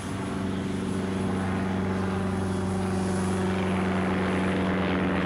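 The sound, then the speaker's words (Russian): An airplane taking off at an airport, its engines giving a loud, continuous, broad roar with a steady low hum beneath that swells slightly over several seconds. “Аэропорт. Самолет взлетел. Взлетающий самолет загорелся и упал.”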